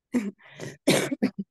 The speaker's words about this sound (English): I'm sorry for coughing.